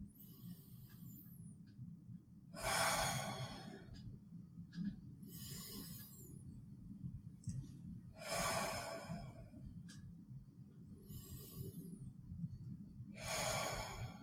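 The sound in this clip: Slow, deep breathing during a guided exercise with the right thumb pressed into the left palm: several faint, airy breath cycles rise and fall at a steady, unhurried rhythm over a low hum, with no talk.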